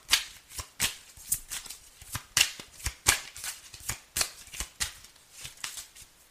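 A Crystal Tarot deck is shuffled, making many rapid, crisp slaps and flutters in a fairly even rhythm. The shuffling is loud and clear, with no talking.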